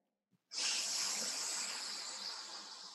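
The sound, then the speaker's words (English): A group of people inhaling together: one long, loud, breathy hiss that starts abruptly and holds steady for about two and a half seconds, easing slightly toward the end. “And then let's all do an inhale together.”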